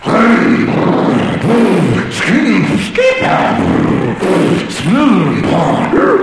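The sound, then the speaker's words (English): A man's voice imitates a go-kart engine warming up, with repeated rough, growling revving bursts that swell and dip in pitch. The imitation is loud and nearly continuous. “We're all warming up. I'm warming up my go-kart.”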